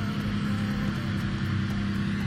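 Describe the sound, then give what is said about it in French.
A BMW M3 E46 rally car with a sequential gearbox arrives, its engine a steady, low droning hum held at a moderate level without clear revving. “Nouvelle BMW M3 E46 ici qui arrive.”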